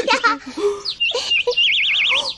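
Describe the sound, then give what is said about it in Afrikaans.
Small birds chirp in a garden with a birdbath: a quick run of high, bright chirps and whistles, followed by a trilling, wavering warble near the end. “Die voeltjies bly daarom baie mooi, né? Ja, hulle klink so baie vrolik.”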